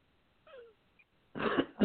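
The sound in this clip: Coughing: a brief, faint wheezy breath is followed by two short, harsh coughs in quick succession.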